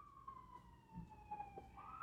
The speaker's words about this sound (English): Can't get away from the sirens.